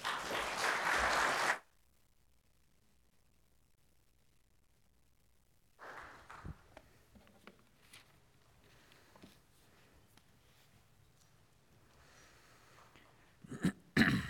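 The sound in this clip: A church audience applauds a welcome for a missionary family: a loud, dense burst of clapping lasts about a second and a half, stops abruptly, and gives way to near silence, then faint rustling and small scattered noises.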